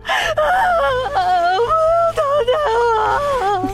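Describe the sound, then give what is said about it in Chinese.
A person cries and whimpers in loud, drawn-out wavering wails, the voice sobbing through several broken, pitch-wobbling moans with short catches between them. “好了好了，别哭别哭了，没事了，你已经表现的很好了。”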